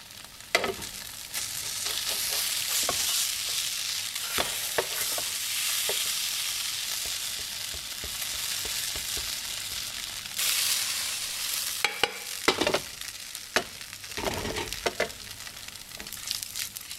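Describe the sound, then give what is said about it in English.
A scallion pancake sears in a pan on low heat, giving a steady sizzle with many scattered crackles and pops, which grow sharper and more frequent in the later part. “And so I'm just going to sear it on like a quite low heat here. So getting it gently caramelized on the bottom”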